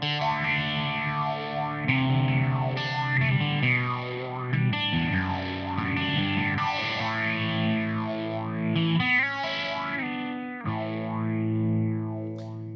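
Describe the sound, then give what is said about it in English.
Distorted electric guitar runs through an amp simulation with a modulation effect, its sustained notes and chords swirling in a slow, repeating sweep with no talk over it. “So a little bit, it sounds like a guitar amp in a room. It does still sound like a guitar amp in a room.”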